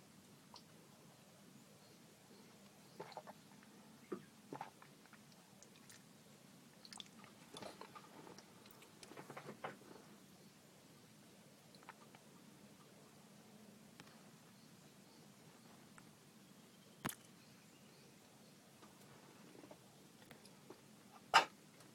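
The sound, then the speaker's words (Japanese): Faint mouth sounds of someone drinking water: soft sips and gulps scattered irregularly across near silence, with a couple of slightly louder ones toward the end. “ちょっと喉乾いてきたんで、ちょっと水飲みますね。”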